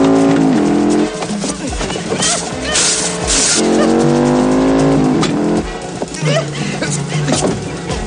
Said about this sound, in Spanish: David llega a la casa y entra con la moto en el salón atravesando la puerta.